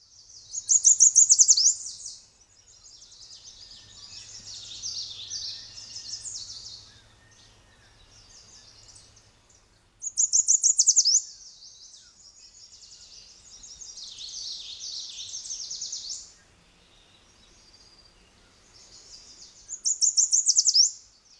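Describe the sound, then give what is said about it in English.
European starling song comes in three bursts of high, chattering, whistled phrases, each loudest at the start and trailing into quieter rambling warbles, all fairly faint. “European starling.”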